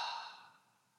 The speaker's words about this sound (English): Twice more. Big inhale. Long exhale.